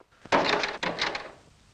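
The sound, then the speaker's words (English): A locked bedroom door being tried: two dull wooden thunks and rattles from the handle and door about half a second apart, each fading quickly, alone without speech. “He crosses to an ornate stained glass window and peers out before trying the bedroom door and finding it locked.”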